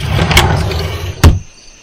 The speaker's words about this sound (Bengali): মানিব্যাগটা ড্রয়ারে রেখে দি।